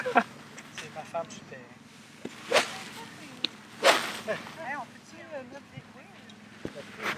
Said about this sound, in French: Mon instrument de destruction massive, le Fer 4. Le Fer 4, un bâton que j'adore. Je vais essayer de frapper bien pour la caméra